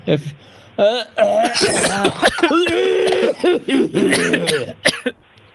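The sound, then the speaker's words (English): A weird cough from someone who fell ill after a meal: a few harsh, abrupt coughs that break up loud conversation, mixed with chuckling and people talking. “I'm sorry for coughing too.”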